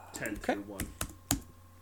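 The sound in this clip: Typing on a laptop computer keyboard: a few sharp, separate key clicks spaced irregularly, with a man's voice talking at the start.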